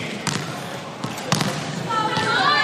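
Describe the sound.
A player serves the ball at match point of a volleyball match. A few sharp, hard slaps of the ball ring out amid voices talking.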